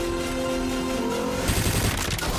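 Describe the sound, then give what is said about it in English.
Rapid machine-gun fire in a film car chase between an Aston Martin and an Alfa Romeo on dusty roads, a loud continuous rattling burst with engine noise throughout. “draws a machine gun”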